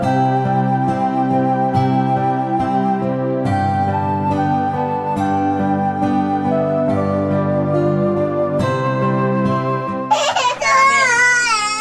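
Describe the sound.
A young child's loud, wavering cry bursts in near the end, following a long stretch of steady, sustained musical tones. The wailing is high-pitched and shaky, and no voices are heard.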